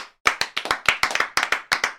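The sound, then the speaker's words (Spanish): Sharp hand claps come in quick, slightly uneven succession, many distinct crisp slaps after a brief silent start, loud and without voices. “Un aplauso.”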